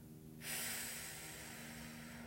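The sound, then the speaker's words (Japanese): A slow, steady breath out during a relaxation breathing exercise: a soft, airy hiss that starts abruptly and holds evenly, faint, with no talk. “ゆっくり吸い込みますせーの鼻からでも口からでも両方でも OK です吐きます”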